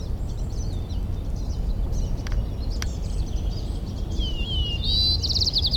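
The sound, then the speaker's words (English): A faint White-crowned Sparrow song: thin, high whistled notes and a brief trill near the end, sitting over a steady low rumble of background noise. “White-crowned Sparrow A continued.”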